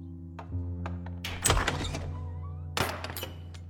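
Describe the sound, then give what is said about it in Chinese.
A door is unlocked and opened while its security chain stays fastened: a few soft clicks, then two louder clunks over a steady low hum. “开锁的声音响起，门开了，但链条仍然挂着。”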